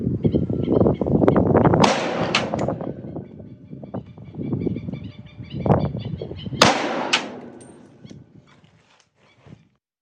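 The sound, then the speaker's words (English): Sharp, loud cracks of an AR-15 rifle firing 5.56 rounds at a pig's ear, a few sudden reports over a rough, noisy rumbling background. “Shooting an AR-15, 5.56. This is going to be our damage test on an ear. We're going to try to graze it and see what we can do.”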